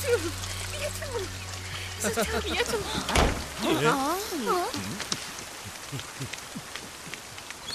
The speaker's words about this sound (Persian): بیا تو درو ببین بستمش.